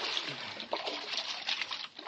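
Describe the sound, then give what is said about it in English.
Canoe paddle splashing through water as a radio drama effect, a steady, continuous wash of trickling and slapping water with soft bursts of splash. “All right, now lean on that paddle.”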